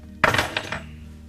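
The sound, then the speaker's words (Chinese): A room key clinks as it is handed over: one sharp metallic jingle, then a couple of lighter taps fading quickly into quiet. “拿着房间钥匙。”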